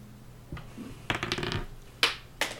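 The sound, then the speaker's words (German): Dice are rolled during a tabletop role-playing game, a quiet rattling clatter followed by two sharp, separate clicks as they settle. “Der Würfel ist tief gefallen.”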